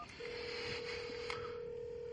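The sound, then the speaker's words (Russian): A telephone tone sounds as a call is dialled: a steady, unbroken mid-pitched tone begins just after the start and holds to the end, with a faint click partway through. “Энтони звонит Кристоферу.”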